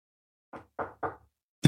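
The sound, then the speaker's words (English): Knocking on wood: three evenly spaced, dull hollow knocks, quiet and alone. “Got to knock on some wood there.”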